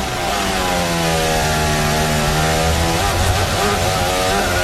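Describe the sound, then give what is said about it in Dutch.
A Formula 1 racing car engine roars on lap 36 of 71 at the 2026 Austrian Grand Prix. It holds a loud, continuous high-revving whine with strong, steady harmonics throughout, and no voices are heard. “Onder het geluid van Oscar Piastri in de 36e van 71 ronde van de Lenovo Austrian Grand Prix 2026 op Grand Prix Radio.”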